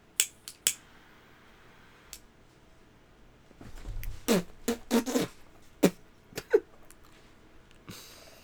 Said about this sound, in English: Got some ash in my mouth. It happens to the best of us. Got some ash in my mouth. Had to spit it out. It would have burned me.